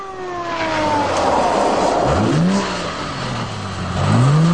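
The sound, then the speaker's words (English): A police car's engine hums as it pulls over and parks at the roadside. The note swells and shifts in pitch as the car slows, then settles into a steady idle, with no speech. “Pull over at the roadside and the cop car parks behind them.”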